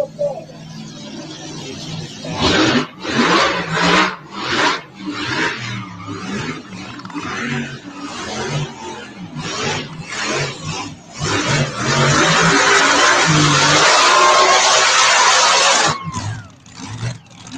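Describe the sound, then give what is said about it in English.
Engine roar of a mini rod car driving, with repeated revving bursts that build into a long, loud, sustained roar before easing off near the end. “Jay Leno driving a mini rod”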